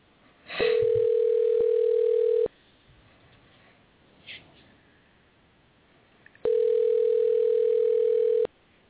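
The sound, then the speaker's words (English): Telephone line tone as a call is dialed for an interview: two long, steady, even tones of about two seconds each, separated by a quiet gap with faint line hiss and a brief click. “we're going to be dialing in Kevin Lee here and do our interview”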